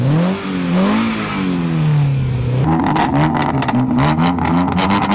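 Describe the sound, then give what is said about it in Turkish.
A car engine revving through a tampered, overly loud exhaust during a traffic police inspection: a droning tone wavers and sinks, then breaks into a choppy, rapidly pulsing burble as the throttle is blipped, loud and continuous. “Egzozunda oynama mevcut. Gaz verelim.”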